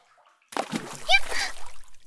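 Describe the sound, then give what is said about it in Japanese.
A splash as someone jumps into water nearby, a sudden churning burst that breaks a near silence, followed by sloshing water with a brief voice over it. “もう、なんでわざわざ近くに飛び込むのよ。溺れるかと思ったじゃないの。”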